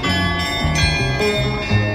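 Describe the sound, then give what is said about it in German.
Chimes of a historic glockenspiel in Esslingen: loud, ringing bell tones with rich overtones that step through changing notes in a steady sequence, heard alone without voices. “Historisches Glockenspiel inklusive.”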